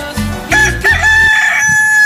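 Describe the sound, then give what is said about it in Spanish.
A rooster crows in one long, loud, drawn-out call with a strong ringing pitch, sounding on its own in the morning. “Y mi gallo le canta de esta manera.”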